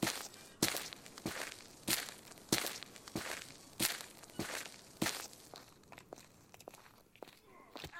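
Quick footsteps of people hurrying along, a steady run of crisp, sharp steps at a brisk pace, many in a row with no talking.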